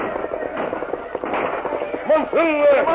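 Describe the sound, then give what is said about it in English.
Gunfire sound effect from an old radio western, as a war party opens fire on riders: a dense, crackling volley of sharp pops, with shouting voices breaking in near the end. “when the Indians opened fire.”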